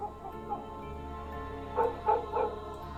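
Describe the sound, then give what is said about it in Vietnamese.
Dogs bark in the distance near the head of a market, faint, with three short barks in quick succession near the end over a low, steady hum. “Văng vẳng ở đậu chợ, có tiếng chó cắn ma nhấm nha nhấm nhẳng, nghe đến sốt cả ruột.”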